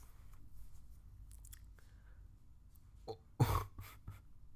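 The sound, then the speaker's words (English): A single loud, noisy snort bursts out after a few faint soft clicks and rustles, then quiet returns with some light noise. “Did you just snort? I think I did”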